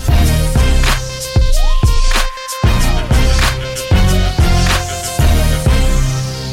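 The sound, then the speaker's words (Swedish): A custom signature jingle for a football segment on a sports show plays loudly: punchy music with a steady, pounding beat and a repeating synth melody, with one short break in the middle and no talk. “Vi har skapat en helt egen signatur till dig, Jens. Den låter så här.”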